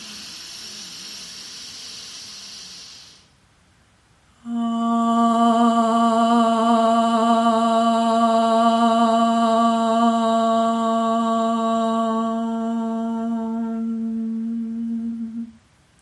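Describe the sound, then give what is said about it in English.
A single chanted Om closing a morning yoga practice: a breathy exhale, a short quiet gap, then one steady, low, resonant voiced tone held for about eleven seconds at even strength before it stops. “we will chant Om one single time to close this morning's practice. Exhale, empty the lungs. And inhale for Om.”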